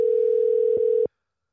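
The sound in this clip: Telephone dial tone heard while calling someone back: a steady, single-pitched tone with a couple of faint clicks, cut off abruptly after about a second, followed by silence.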